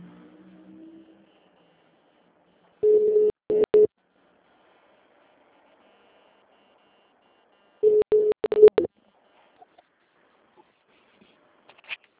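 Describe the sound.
A telephone on-hold tone plays during a call about a payroll loan: two short bursts of mid-pitched beeping, several seconds apart, with near silence between and no voices.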